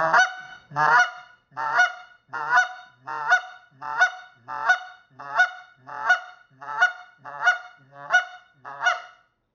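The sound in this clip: A blown goose call gives a rasp at the start, then a steady run of evenly spaced, honking clucks. The clucks are loud and clear, with short silences between them and no other sound.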